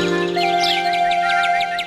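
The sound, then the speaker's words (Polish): Sparrows chirp in a supermarket jingle: a steady run of quick, high chirps repeats throughout, sitting over sustained musical tones with no voices. “Ćwierkają wróbelki od samego rana.”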